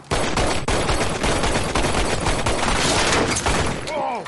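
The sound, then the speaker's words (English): Gunfire in a shootout: a dense, loud fusillade of overlapping shots with sharp cracks that barely let up from start to finish. “The fuck can you make a shootout awkward?”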